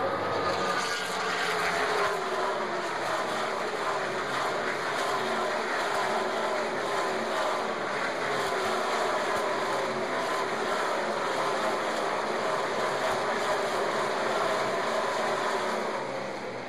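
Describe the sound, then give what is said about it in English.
Race car engines roar past on a track, captured from pit road about ten laps into a race as the field spreads out; a steady, loud, continuous droning whine with shifting engine pitch. “Was recorded on my mobile device, so you'll have to excuse the recording, but that was from pit road about 10 laps into the race as the cars started to get stretched out.”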